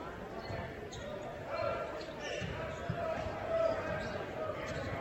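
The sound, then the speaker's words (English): A basketball dribbled on the court during an Emporia High Lady Spartans girls' high school game, a few faint bounces buried in a steady crowd din, with voices talking over it. “it's a double dribble on to junior Kinsley Hines”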